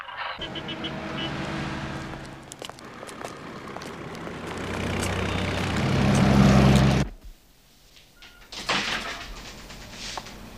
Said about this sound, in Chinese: 听听这声音。 听起来就像狗熊追着小猫跑。 安迪，引擎冒烟